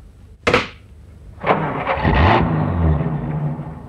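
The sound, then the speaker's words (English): A taxi cab drives away along a roadway: a couple of sharp bursts give way to a steady, low engine rumble that swells and holds to the end. “standing there in the roadway watching my cab drive away”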